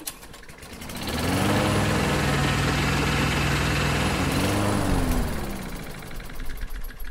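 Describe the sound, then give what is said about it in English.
An old generator engine runs with a steady mid-pitched drone that swells up, holds evenly for several seconds, then fades back down. “I think there's a generator here. Does it still work?”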